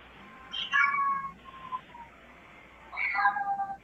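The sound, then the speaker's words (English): A cat meows while someone is on a phone call: two drawn-out, high-pitched meows, the second after a quieter gap, with no talk over them. “Go ahead, kitty cat. Talk to her.”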